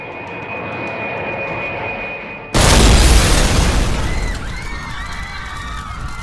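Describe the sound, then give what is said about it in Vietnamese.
A hijacked airliner crashing into the World Trade Center: a steady, high-pitched jet engine whine cuts to a sudden loud explosive impact, followed by a dense roaring rumble that slowly eases. “Một tiếng sau đó, hai chiếc máy bay bị không tặc nắm giữ đã đâm thẳng vào trung tâm thương mại thế giới.”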